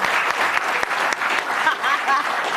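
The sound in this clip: Studio audience applause on a talk show: steady, dense clapping that carries on for nearly three seconds at an even level. A few faint vocal sounds surface briefly toward the end.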